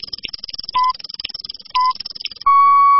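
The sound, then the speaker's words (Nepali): An FM radio station's time-signal pips at the top of the hour: two short, steady mid-pitched beeps about a second apart, then a longer sustained tone, all over a rapid, regular ticking pulse. “Shukla Gandaki time check.”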